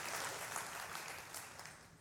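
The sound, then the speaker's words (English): Applause from a church audience, a dense, steady wash of many hands clapping that fills the whole stretch without voices. “So, yeah, we can clap for that.”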